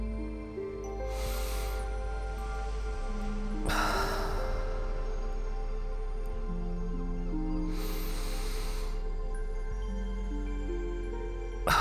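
Three slow, deep breaths in a guided relaxation exercise, each a soft, airy rush of breath spaced several seconds apart. Sustained calm tones hold steadily beneath the breaths.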